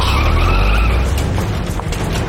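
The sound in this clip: Tires skid and a car engine roars as a car speeds off in a hurried getaway, a loud, continuous rush of noise with a thin squeal running through it and no voices.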